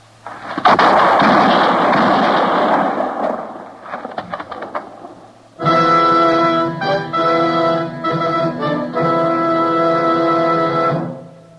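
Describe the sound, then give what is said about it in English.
Gunshots in a western radio drama: a loud, booming burst of shots with rumbling decay, a few sharper cracks, then a dramatic orchestral music sting. “Heard the shots, Matt.”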